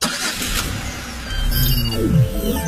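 A car engine drones steadily while driving, then swells louder with a brief revving surge near the end.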